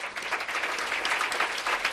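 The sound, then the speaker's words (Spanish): Applause from fellow MotoGP riders at a press conference after a retirement announcement, a dense, continuous patter of many hands clapping steadily throughout without a break. “Son los aplausos de sus compañeros de parrilla.”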